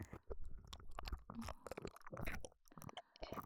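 Quiet, moist chewing of soft food, with many small squishy bites and mouth sounds following one another irregularly and no speech.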